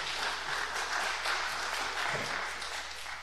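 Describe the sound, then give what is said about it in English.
An audience applauds a guest speaker with continuous, dense clapping that holds steady for about three seconds, then eases slightly at the end. “Give her a hand as she uh, prepares to uh, speak for us.”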